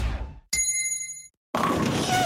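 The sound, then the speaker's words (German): A single struck gong signalling a drinking break: a bright metallic ding with ringing overtones that lasts about a second and then cuts off, between stretches of other sound. “Trinkpause. Der Gong. Hydration Break.”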